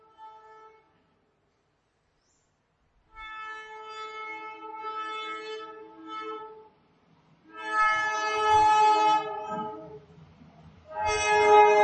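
Chord-like train horn blasts play in a radio advertisement for trains. A brief toot is followed by three long, sustained horn blasts separated by quiet gaps, with a low rumble under the later ones.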